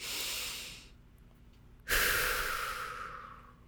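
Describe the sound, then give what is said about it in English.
A person takes a deep breath: a soft, airy inhale, a short pause, then a stronger breathy exhale like a sigh that slowly tapers off. “I want you to pause and take a deep breath.”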